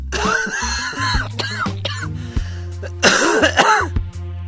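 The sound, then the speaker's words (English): A man from Los Angeles coughs in a series of harsh, raspy bursts, a few short ones early on and then a longer, louder fit near the end, with a low steady hum underneath. “just listen to this man's cough.”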